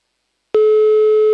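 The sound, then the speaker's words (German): A telephone line tone sounds as a call is placed: a single steady, mid-pitched tone starts after half a second of silence and holds unbroken to the end. “So, wen ruft man da jetzt an? Der Jakob ist dran.”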